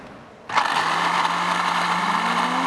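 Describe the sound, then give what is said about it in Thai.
A blender with its lid closed whirs into life and purees boiled beans with yogurt, starting abruptly after a moment of quiet and then holding a loud, steady mechanical whine whose tone creeps slightly upward toward the end. “คราวนี้ปิดฝาแล้วปั่นเลยครับ”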